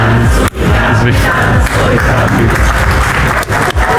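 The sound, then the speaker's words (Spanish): Studio audience chanting in unison on a TV game show, urging a contestant toward the right answer: a loud, dense crowd roar with rhythmic vocal pulses that holds steady throughout. “En su primera pregunta dudó, pero al ritmo del cántico, el público le confirmó que tenía la respuesta correcta.”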